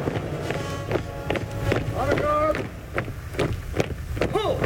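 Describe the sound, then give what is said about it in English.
Gideon's soldiers marching into battle: many regular, crisp footfalls in a steady stride, with voices underneath throughout. “32,000 of Gideon's soldiers are marching into battle now.”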